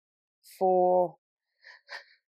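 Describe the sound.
A single voiced yawn, a steady drawn-out groan of about half a second, followed by a couple of soft breathy sounds.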